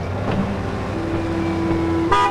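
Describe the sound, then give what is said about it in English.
A red pickup truck backs out of a driveway. Its engine gives a steady, low rumble throughout, and a short horn toot sounds at the very end. “the red pickup backs out of the drive”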